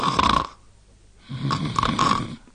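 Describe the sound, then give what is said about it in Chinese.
A voice imitating snoring, as a child pretends to snore while standing: two drawn-out, rasping snore sounds separated by a short quiet gap, the second longer than the first. “一边站着跟着一边打呼噜。”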